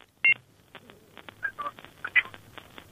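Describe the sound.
Telephone dialing tones as a call is placed to a caller: a loud opening beep followed by a few fainter, irregularly spaced keypad tones, with no voices.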